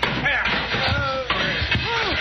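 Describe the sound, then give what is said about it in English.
During a fistfight with a knife-wielding bandit, a man is thrown over someone's head, giving a few heavy slamming thuds among voices. “He threw him right over your head.”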